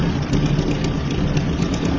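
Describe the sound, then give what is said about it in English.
A 1952 Ural motorbike engine runs at a steady idle, giving a dense, even low rumble with a rough mechanical texture and no clear revving. “It's a 1952 Ural motorbike, bro. If you so much as scratch it...”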